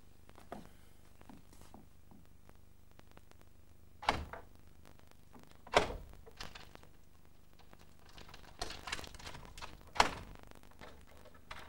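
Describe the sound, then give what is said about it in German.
A door being opened: a few faint, sharp clicks and knocks spread across a quiet stretch, with soft patter between them and no talk. “Dann machen Sie jetzt auf. Erstmal weg. Gehen Sie ein Stück weg von der Tür.”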